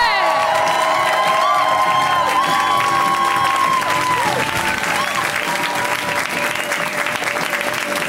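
Loud, sustained applause from a comedy show audience for a comedian, with cheers and whoops rising above the dense clapping and continuing steadily throughout.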